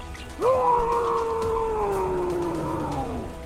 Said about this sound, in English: Borwin, he starts to hunch forward and then screams